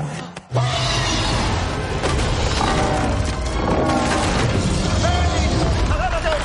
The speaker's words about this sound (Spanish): La flecha se clava en el punto vulnerable de Smaug, que cae golpeando el campanario.